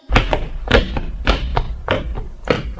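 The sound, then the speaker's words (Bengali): Door being locked from the inside, heard as a series of dull thunks and taps in an uneven rhythm, fairly loud and sharp, with no talking. “দরজাটা আমি ভেতর থেকে lock করে দিচ্ছি।”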